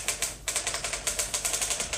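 Typewriter keys clatter out a dictated letter in a quick, steady run of many sharp keystrokes, with one brief pause early on before the typing resumes at an even, brisk rhythm.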